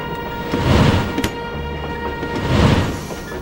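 A moving train rumbles with broad, low noise that swells twice and eases in between, with a brief sharp knock near the middle.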